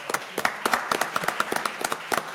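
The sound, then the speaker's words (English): Applause for an actor and writer at an event, a sparse patter of separate hand claps in an uneven rhythm, moderately quiet and without a dense crowd roar. “How about a round of applause for Mr. Harold Sylvester?”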